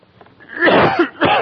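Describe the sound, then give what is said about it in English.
Two harsh coughs from a person preaching at a church service. A quieter rasp leads into a loud, rough burst, and after a short pause a second, shorter cough follows. “Excuse me for coughing.”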